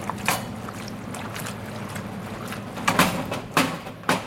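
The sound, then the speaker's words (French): A ladle of pasta cooking water is poured into a pan of tomato sauce, giving a few splashy bursts over a continuous watery hiss. “Je les dépose directement dans la poêle où j'ai déjà ma sauce tomate. Et puis, aggiungo un po'. Et je rajoute une louche d'eau de cuisson des pâtes.”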